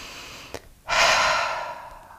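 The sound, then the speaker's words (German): A deep breath: a brief click, then a loud, airy rush of breath that swells quickly and slowly fades over more than a second, with no talking. “Schließ einmal kurz die Augen und atme einmal ganz tief ein und aus.”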